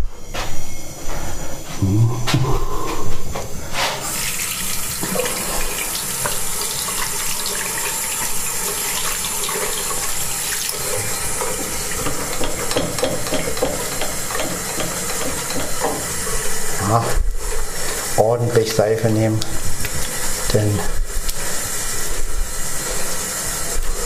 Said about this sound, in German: Hände waschen?